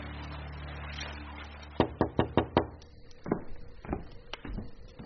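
Knocking on a door: five quick, sharp raps in an even rhythm, then a few softer, uneven knocks, all over a low steady hum.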